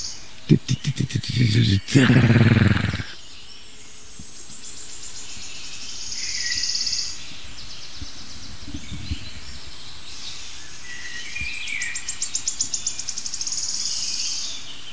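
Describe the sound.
A songbird repeats the same high, trilling strophe twice, each phrase ending in a quick run of notes. A voice is heard briefly at the start, and the song stays fairly faint over quiet background hiss.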